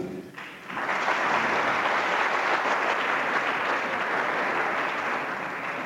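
Sustained applause from members of the Thuringian Junge Union welcoming a professor. A dense, even clapping begins after a brief quiet moment and holds steady and loud to the end, with no talk over it.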